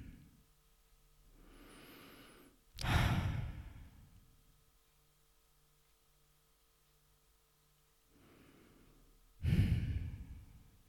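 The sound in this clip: Two slow, deep breaths, each a soft, airy inhale followed by a louder, sighing exhale, with a long quiet pause between them.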